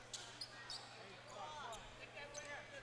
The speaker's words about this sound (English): dribbling through the lane